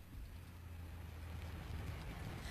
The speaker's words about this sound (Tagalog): Ay, mega timing! Ara na ang taxi nga sakyan mo pa simbahan!